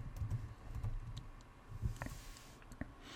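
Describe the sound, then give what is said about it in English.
Soft typing on a computer keyboard while entering a business name as the username for a new online account. Light, irregular key clicks sound over a faint steady hiss. “So in this case, we'll type in house service company.”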